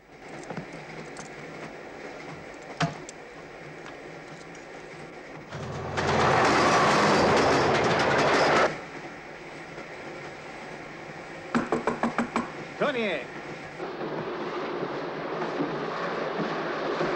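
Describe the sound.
A moving train rumbles steadily throughout, with a louder roaring stretch in the middle and a quick run of sharp clattering knocks near the end.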